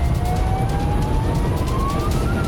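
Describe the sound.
A fire engine siren wails in traffic, a single continuous tone that climbs slowly and steadily over a constant low road rumble.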